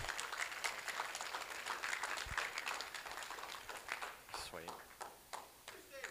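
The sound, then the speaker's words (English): Faint applause rises at a church gathering as people stand to welcome a speaker. Scattered claps mix with talking voices. “Why don't you stand and give him a round of applause?”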